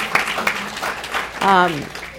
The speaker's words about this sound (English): Yeah, we can applaud.